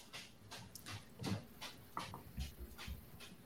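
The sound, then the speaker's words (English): Dog sounds from one of two bulldogs being dog-sat: a run of breathy snorts and pants, with a few louder huffs spaced irregularly and no talk. “I'm dog sitting two bulldogs right now.”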